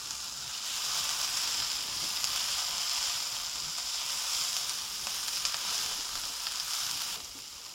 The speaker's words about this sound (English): So that's 1/8 teaspoon of cayenne or red pepper powdered and 1/4 teaspoon of ground cumin. Stir that in, cook it for another 30 seconds or so.